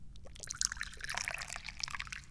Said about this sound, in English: I'm getting ready to pour myself some tea because I'm thirsty for tea.